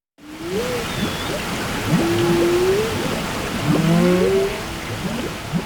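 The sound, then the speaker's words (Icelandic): Whale calls recorded underwater with hydrophones in Bakkaflói off northeast Iceland. Several tonal moans and short rising sweeps sound over a constant watery hiss. “Þeir hafa notað neðarsjávar hljóðnema og tekið upp tjáskipti kvala við Íslandsstrendur”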